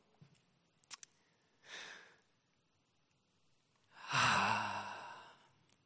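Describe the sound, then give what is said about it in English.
A single slow breath, heard alone as two soft airy whooshes, the second longer and louder like a sighing exhale, with a couple of faint clicks before them. “Here is breath number one.”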